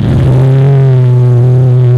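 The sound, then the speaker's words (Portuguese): A BMW M5 car engine revs loudly, holding a steady, strong droning tone with rich harmonics throughout. “Mein BMW M5.”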